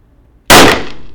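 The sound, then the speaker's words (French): A single loud, sharp gunshot fired at a shooting target bursts out suddenly from near silence, followed by a short decaying tail. “Alors, je remarque que vous avez tiré au centre de la cible.”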